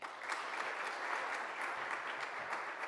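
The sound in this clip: Warm audience applause welcomes a speaker at a morning Monadnock Summer Lyceum talk, a steady, moderately soft patter of many hands clapping throughout.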